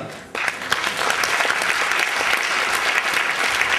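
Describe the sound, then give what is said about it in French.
An audience at a jury introduction claps, dense steady applause rising suddenly and holding loud and even throughout, with no talk over it. “Merci de l'acclamer.”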